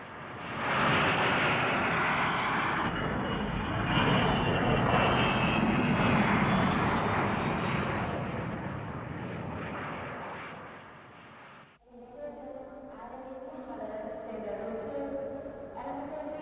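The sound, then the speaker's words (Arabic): Airplane about to land: loud, steady engine roar rumbles for around eleven seconds, then cuts off sharply, followed by quieter tonal sounds. “عن إذنك، الطيارة قربت تنزل.”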